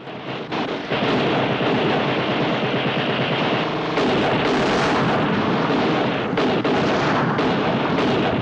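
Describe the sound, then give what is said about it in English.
Heavy gunfire comes from a war film scene in which German soldiers lie along a cliff edge, firing down at Allied troops on a rocky beach. A loud, dense, unbroken barrage of shots mixes with deep booms that swell in several bursts. “His men line the cliff edge on their stomachs, firing down at the Allies on the rocky beach.”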